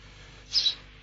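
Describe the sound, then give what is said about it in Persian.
A single short, high sparrow chirp from a tame pet bird, a faint two-part tweet rising briefly out of a quiet background. “چه جور پرنده ای این؟ گنجشکه.”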